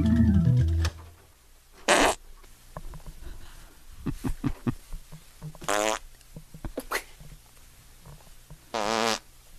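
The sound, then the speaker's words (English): Fart noises during stepping at a live comedy show in a church: several loud, buzzy blasts spaced a few seconds apart, with softer taps and thumps between them. “He's stepping and farting. Must have been the beans.”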